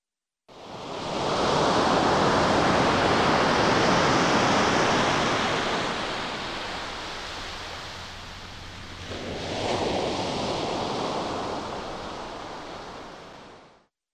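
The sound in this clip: Ocean waves at sea, a continuous broad rushing wash that eases off midway and then swells again before fading out.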